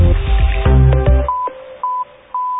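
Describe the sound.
Phone keypad dialing tones as a bank's short code is keyed in: three short, steady beeps with brief gaps between them, coming after a denser stretch of other sound.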